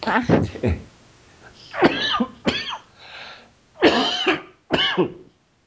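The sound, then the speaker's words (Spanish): Harsh coughing in several separate bursts, some rough and voiced, with brief quiet gaps between them. “Ya mejor no lo digo porque ya me dio tos otra vez.”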